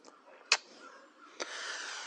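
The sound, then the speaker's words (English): Harsh crow caws on a spring morning, two sharp loud calls standing out from a quieter background, the second running into a sustained rough sound to the end. “I hear the crow calling and the morning dove mourning”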